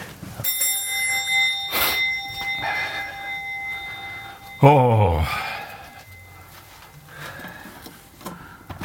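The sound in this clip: A doorbell rings at a house door, sounding bright, sustained chiming tones for several seconds. Partway through, a sudden louder clattering burst cuts in and then fades into quieter background noise.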